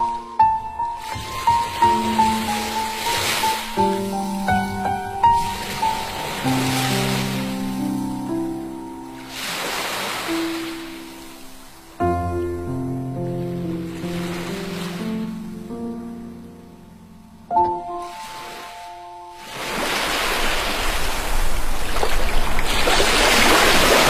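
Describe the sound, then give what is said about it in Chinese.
Ocean waves stirred by a light breeze wash in as broad, hissing surges, building loudest near the end, under a melodic music track with clear sustained notes. “听海浪的声音被微风吹拂。”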